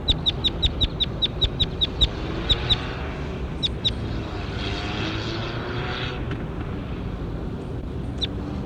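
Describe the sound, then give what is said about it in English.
A bird chirps in a quick run of many short, sharp, high-pitched calls. The calls then thin out to sparse repeats over a steady low engine rumble. “That was bird 21. Here he is again.”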